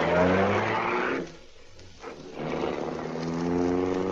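A car driving with a steady, loud engine drone that drops away briefly partway through, then swells back up and carries on to the end.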